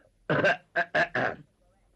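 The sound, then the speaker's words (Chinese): A voice imitates coughing with a quick run of four short, harsh, voiced bursts, heard alone with no other sounds around them. “张作霖听完这话之后，把眼前的酒杯一推，咳嗽了两声”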